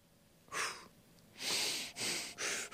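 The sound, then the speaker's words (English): Breathing through the nose and mouth, as once practised while running cross country: a few loud, airy breaths in steady succession, with no voices. “I can breathe through the nose, but I'm a mouth breather at times, very frequently. When I used to run cross country, I tried to breathe through my nose and mouth.”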